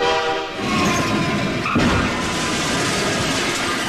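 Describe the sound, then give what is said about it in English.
Freight train passing over a railroad crossing, given as a sound effect. A loud, steady rumbling roar runs throughout, and a sustained horn blast sounds over it for the first half before cutting off. “Here comes a big old freight train”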